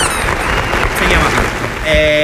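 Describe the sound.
Applause welcomes a returning guest as a dense, steady wash of clapping that holds throughout, with a voice rising over it near the end.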